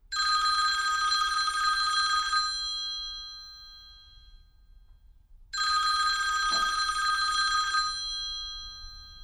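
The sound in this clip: A mobile phone rings in a spa hotel, two long, shrill electronic bursts separated by a few seconds of quiet, each steady and bright before trailing off, with no voices.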